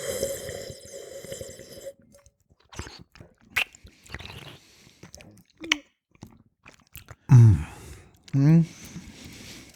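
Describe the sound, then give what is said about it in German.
Slurping of a young Riesling during a wine tasting: two short, loud, gurgling draws near the end, following quieter mouth and handling sounds. “So, jetzt werde ich ein bisschen schlürfen, nicht erschrecken.”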